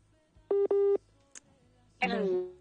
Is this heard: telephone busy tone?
yes